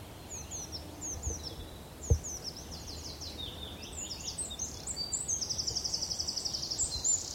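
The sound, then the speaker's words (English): In woodland on Sugar Loaf mountain, a wren and a wood warbler sing faintly, with scattered high chirps followed by a quick, even trill toward the end. “Funny, there's a bit of wren in the wood warbler's song. There's a wren there.”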